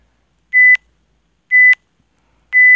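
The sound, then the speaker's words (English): Three short electronic timer beeps count down at even intervals about a second apart. Each is a steady mid-pitched tone that ends in a brief, brighter click, with silence between beeps. “So I'm starting the timer, and you'll hear little beeps for 3, 2, 1.”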